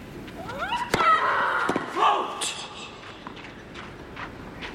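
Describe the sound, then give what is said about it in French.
A powerful tennis first serve by Sabalenka, clocked at 188 km/h, makes a single crisp crack that stands out above low background noise. A softer knock follows shortly after. “son premier service sur ce point qui vient de se terminer était à 188 km/h. Écoutez la puissance de cette frappe.”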